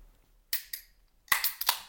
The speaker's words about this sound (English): Why are we opening a beer?